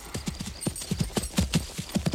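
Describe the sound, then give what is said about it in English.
Horse hooves clip-clop in a procession heading for a castle: many crisp, hollow hoof strikes in a brisk, uneven rhythm, moderately loud and alone without speech. “Don Quixote and make sure that his horse doesn't fall down, for goodness sake. They set off for the castle in a decorous procession.”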